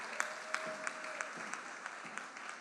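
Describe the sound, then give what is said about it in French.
Congregation applauding in church during a worship service. Steady, dense crowd clapping with regular rhythmic accents running throughout. “Alléluia, est-ce qu'on peut acclamer notre Dieu ce matin?”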